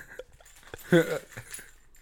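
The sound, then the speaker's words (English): A brief jangle of a set of keys, jingled for a segment about being locked in and locked out, comes as a short, light metallic rattle among soft sounds and quiet voices. “Ooh. Keys, get it? Locked in, locked out. Yeah, jingle them again.”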